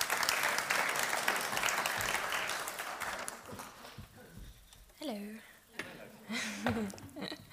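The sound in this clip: Audience applause welcoming a staff member who oversees children's work, dense and steady for a few seconds before thinning out, then a single voice begins speaking.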